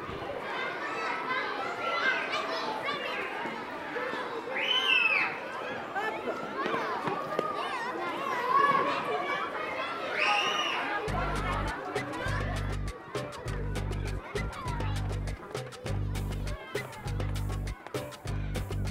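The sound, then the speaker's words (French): Children playing in a school playground at recess, a dense mix of many shouting, laughing and chattering young voices, loud and continuous, with a sharp rapid crackling noise joining in the second half. “J'arrive, nous l'entendons, à l'heure de la récréation.”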